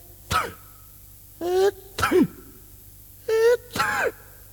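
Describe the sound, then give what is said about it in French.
A voice imitates a man in a thick coat and fur hat blowing his nose, coughing and sneezing in the cold, in a series of short, voiced bursts separated by brief pauses. “Il se mouche une fois, tousse deux fois, éternue trois fois,”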